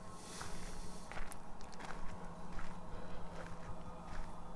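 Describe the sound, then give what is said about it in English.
Footsteps of someone walking, a steady series of soft, quiet steps over a low background hum. “I think this is the sounds of a walk.”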